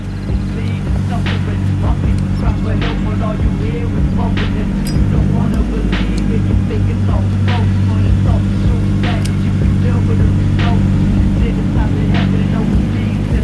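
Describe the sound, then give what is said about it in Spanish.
A car's engine drones low and steady as it passes slowly in front of a house, with a continuous humming rumble lasting about thirteen seconds and faint, sparse clicks above it. “El coche de araña se aproxima y pasa despacio frente a la casa.”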